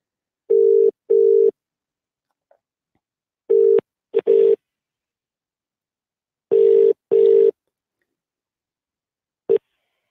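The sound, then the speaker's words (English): Telephone line ringing tones while a caller's number is dialed: several steady, low, buzzy tone bursts, mostly in pairs and separated by silent gaps, ending with one short blip. No voices are heard. “Let's move on to the next caller. Just dialing up the number.”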